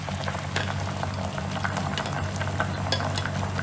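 Wide rice noodles are blanched in a pot of boiling water, giving a continuous, fairly loud bubbling and churning rush with scattered splashy clicks. No voices are heard.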